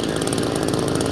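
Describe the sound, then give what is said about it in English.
A chainsaw runs as rescue workers cut a tunnel through the remains of a collapsed high-rise apartment building after an earthquake. The engine holds a loud, steady, rasping drone throughout, with no talk. “Now, that's the sound of rescue workers using a chainsaw to cut a tunnel through the remains of this high-rise apartment building that collapsed.”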